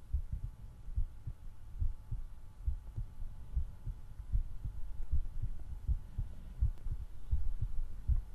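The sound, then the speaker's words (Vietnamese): A rapid heartbeat sounds as a steady run of many low, dull thumps, evenly spaced and quick, over a faint low hum with no voices. “chỉ có tiếng nhịp tim của tôi đang đập liên hồi như là đánh trống trường mà thôi”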